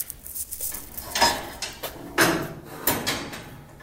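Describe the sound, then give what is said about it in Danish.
A stable door is locked with a padlock and its handle checked, giving a few sharp metallic clacks and rattles spaced unevenly across the stretch with quieter handling in between. “Så er vi gået ud af stallen. Jens Jakob låser forsvarligt tjekker både hængelås og håndtag”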